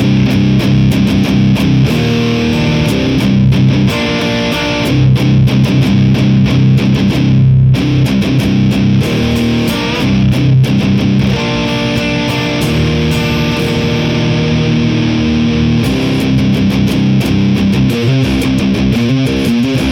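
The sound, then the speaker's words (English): Distorted electric guitar played through a Marshall Silver Jubilee amplifier into a 4x12 cabinet loaded with Vintage 30 speakers; loud, sustained, heavily saturated chords ring out with one brief break partway through. “We've got a Marshall Silver Jubilee with 412. It's 412 and it's vintage 30 loaded, and it sounds like this.”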